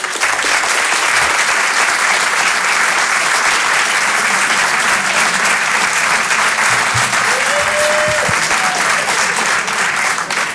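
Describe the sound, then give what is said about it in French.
A comedy-show audience gives a loud ovation, dense, steady clapping filling the whole clip at an even level without a break. “public, vous pouvez vous applaudir très très fort, merci à tous pour cette soirée.”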